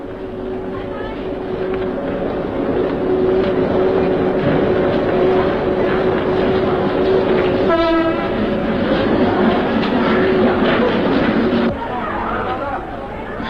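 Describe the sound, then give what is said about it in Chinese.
A train pulls into a station with a steady rumble and wheel clatter. One short horn blast sounds midway, and the rolling noise continues at a fairly loud, even level afterward. “大竹车站到了。请您不要忘记自己随身携带的东西。大竹车站到了。”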